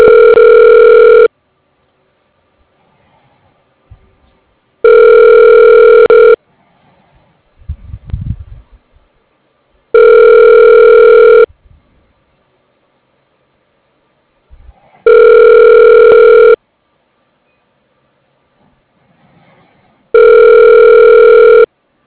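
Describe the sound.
A telephone ringback tone plays while a call connects, five loud, evenly spaced long tones with silent gaps between, and faint rustling in some of the pauses.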